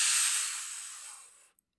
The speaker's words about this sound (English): Let's take this moment to just breathe in.